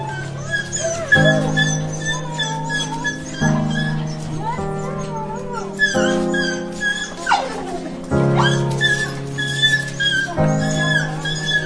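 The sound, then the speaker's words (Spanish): A dog whines and yelps excitedly as it greets its owner, who has just come home after a long absence. High, wavering whimpers rise and fall in pitch, broken by sharp yips, and the sound carries on almost without pause. “El animal no puede evitar saltar en torno a ella, no para de gemir, de lamerla. Está emocionado de poder volver a estar con ella.”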